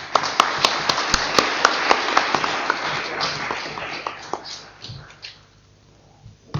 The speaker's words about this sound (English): I'd ask you all to put your hands together and give Brian a very warm welcome.